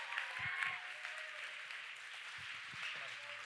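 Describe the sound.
An audience at a church event applauds to welcome speakers to the stage, with steady, even clapping that holds at a moderate level throughout the short stretch.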